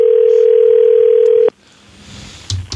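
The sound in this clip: A telephone dial tone plays while a call is placed. The steady, loud tone holds one even pitch for about a second and a half, then cuts off abruptly, leaving faint line hiss and a couple of brief clicks.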